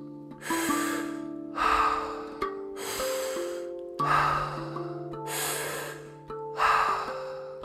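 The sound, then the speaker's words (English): Deep breathing in and out through the mouth during a guided breathwork session, with six strong, airy breath swells in a slow, even rhythm over soft sustained musical tones. “We will be breathing in and out through the mouth, and we'll be taking a full breath in, filling up the belly, chest, and head, and then we'll be letting the breath out.”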